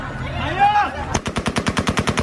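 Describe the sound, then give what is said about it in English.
Gunfire rings out near airport gates as crowds rush chaotically: after a brief stretch of background noise, a rapid, evenly paced burst of many sharp, loud shots rattles off in quick succession. “Outside the gates, shots ring out as the headlong dash, which began yesterday, continues.”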